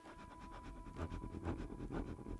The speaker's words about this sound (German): Während die Musik das Motiv von Odum in Österreich andeutet, entlässt die Lokomotive im Hintergrund mit wehmütigem Pfiff